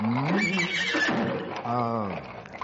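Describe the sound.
A horse whinnies as its rider dismounts, giving a couple of long, wavering neighs that rise and fall in pitch, loud and alone.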